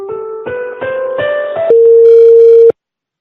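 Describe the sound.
Telephone line tones on a call to a debt-collection company while waiting for an operator: a few short electronic tones stepping upward in pitch, then a longer steady tone that cuts off into silence.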